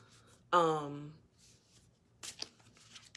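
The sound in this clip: Cards being shuffled and drawn from a deck during a card reading: a brief voiced sound comes first, then a few crisp, papery riffling bursts near the end.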